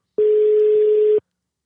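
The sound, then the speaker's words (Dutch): A telephone ringback tone plays while a call is being placed. It is a single steady, low-pitched beep lasting about one second, followed by silence. “Ik ga daar eens even bellen.”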